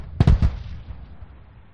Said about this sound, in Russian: Стрелок из КПВ сделал 2 пристрелочных выстрела.